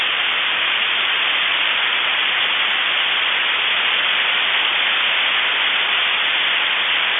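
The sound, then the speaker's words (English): Steady, featureless static hiss of radio telescope signals played through an amplifier and a pair of speakers. It fills the whole stretch at an even loudness, with no tones or voices. “and you can put it through an amplifier and send it through a pair of speakers, and I recorded that. And this is what, if we sat there like Jodie Foster in Contact with our headphones on, and we listened to the signals from our radio telescopes, this is what we'd hear.”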